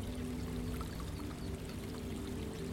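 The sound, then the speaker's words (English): Water trickles and pours steadily in a garden water feature, a pond with lily pads and flowers floating on its surface, making a continuous, even splashing wash with no breaks. “creating the most lovely water feature.”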